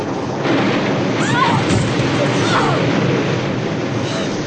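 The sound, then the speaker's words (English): Storm waves crash against a boat in a continuous heavy, rumbling roar with thunderous low surges that swell and ebb throughout. “Oh, Henry! The boat gave such a lurch and flung me out here on the deck. I know. Me too, and it slammed the door after us.”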